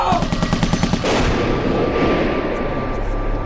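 A rapid burst of gunfire rattles out as many quick shots, aimed at someone carrying a bag. About a second in, it gives way to a heavier, sustained wash of noise that lasts to the end.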